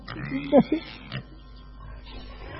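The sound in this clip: Pig grunting: a few short, low, nasal grunts come in a quick cluster, followed by quieter background murmur.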